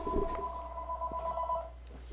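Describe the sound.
A telephone rings once with a steady, bright electronic trill that holds for about a second and a half and then stops.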